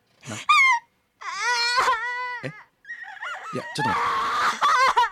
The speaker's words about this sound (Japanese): いやそんな泣かないでね。